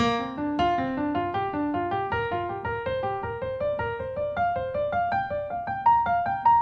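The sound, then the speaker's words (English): A B flat pentatonic scale pattern played in groups of four at a slow practice tempo, clear sustained notes stepping upward in short overlapping runs so the overall line climbs steadily in pitch. “let's take these four pentatonic scales and put a kind of practical pattern on them. Let's start again with B flat, and let's go in groupings of four.”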